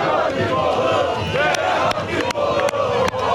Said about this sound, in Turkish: Türkiye'nin dört bir yanında olduğu gibi Kayseri'de de şampiyonluk coşkuyla kutlandı. Galatasaray'ın şampiyonu ilan ettikten sonra Kayseri'deki sarı kırmızılı taraftarlar Kayseri'nin simge noktalarından birisi olan Cumhuriyet Meydanı'na geldi.